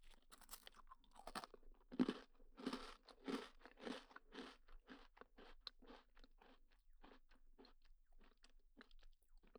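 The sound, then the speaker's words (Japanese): A cookie is crunched and chewed through a long run of crisp, irregular bites and crackly chews. Some sharper, louder crunches come early, with softer moist mouth sounds between them, and no one talks. “私はクッキーおいしいもぐもぐってしてるんです”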